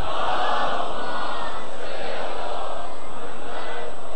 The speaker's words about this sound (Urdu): چلے جی، بلند ترین صلوات. اور جو تھکے ہوئے ہیں بلند تر صلوات.